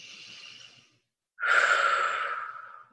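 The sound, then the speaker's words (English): A deep breath: a soft, airy inhale of about a second, a short pause, then a longer, louder exhale that slowly fades out. “Take a deep breath.”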